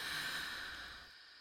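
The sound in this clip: A person breathing in during a guided breathing exercise: one soft, steady, airy inhale that fades gently toward the end.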